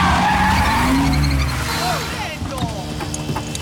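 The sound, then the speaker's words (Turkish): A truck arrives on a one-way street by the Vatican wall in Rome, its loud engine roar giving way to screeching tire squeals while people talk. “Bu tek yönlü cadde Vatikan duvarına ulaşıyor. 30 saniye yeterli. Ve bir kamyon geliyor.”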